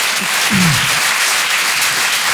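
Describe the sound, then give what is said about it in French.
Audience applause at a French-language stage show: a thick, continuous wash of clapping from a crowd, holding a steady loudness throughout. “applaudissements du monde, s'il vous plaît.”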